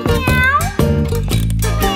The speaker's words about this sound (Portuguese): E vem o gatinho.